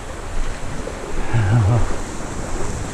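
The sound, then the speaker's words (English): Sea water surging and washing at the turn of the tide on a misty night, around someone standing knee-deep: a steady, loud rushing wash with gentle swells in level throughout. “Misty night as well, spooky. I can hear the turn of the tide here.”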